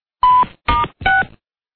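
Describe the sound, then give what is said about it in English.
Answering machine beeps: three short, loud electronic tones, each at a slightly different pitch and separated by brief gaps, with silence before and after. “Sorry we missed your call. Leave a message at the beep.”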